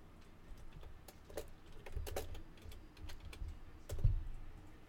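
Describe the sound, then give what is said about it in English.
Fingers type on a computer keyboard in faint, uneven clusters of light clicking keystrokes, with the loudest strike near the end. “so let's actually type something”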